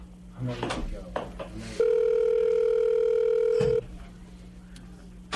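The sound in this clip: A telephone ringback tone sounds during an outgoing call that will likely go to voicemail. It is a single steady, loud, humming tone of about two seconds, preceded by brief voices and followed by low background noise.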